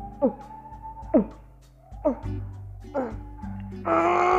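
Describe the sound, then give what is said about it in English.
A voice imitates groaning, like someone straining to push something out, with four short grunts that drop in pitch, in a steady rhythm. “sometimes it comes with groaning. So you hear something like,”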